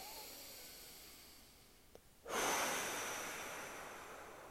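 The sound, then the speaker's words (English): A single deep inhale begins abruptly after a quiet moment with a faint click, then swells into a long, breathy rush of air that slowly fades. “let's take a deep inhale in.”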